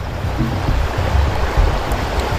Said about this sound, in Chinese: 你看这是一瓶矿泉水，我们先不能直接倒，要给扎个孔吗？ 对，咱们扎个孔，用个细小的水流